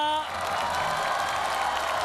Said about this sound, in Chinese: 我觉得好像掌声比我那个要热烈一点，是不是？